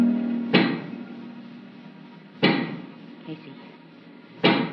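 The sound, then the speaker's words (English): A giant pick knocks deep in a mine: three loud, dull thuds about two seconds apart, with a fainter knock between the last two and a low hum before the first. “do you hear that knocking? I sure do. That is the sound of a giant pick.”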